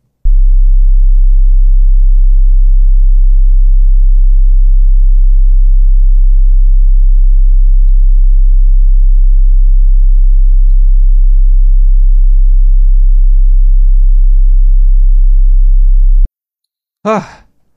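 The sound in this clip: A steady, very low 33 hertz test tone, loud and unbroken for about sixteen seconds, cuts off abruptly. A brief voice exclamation follows.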